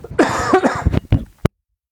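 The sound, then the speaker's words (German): Coughing from someone who is slightly unwell: a throaty, voiced rasp followed by a few short, sharp coughs, then silence. “da haben wir den nächsten Husten”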